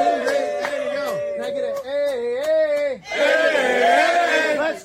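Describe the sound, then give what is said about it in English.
Buffalo Bills fans cheer and whoop: several excited voices give drawn-out, wavering shouts, then a denser burst of group cheering swells through the second half. “let me just wheel you around here and show you some of the amazing Buffalo Bills fans. Say hello.”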